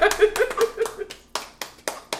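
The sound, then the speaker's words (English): Clapping greets a University of Delaware alumnus: a short burst of overlapping claps and voices, then a few sharp, separate claps at a steady pace. “Get everybody do a round of applause.”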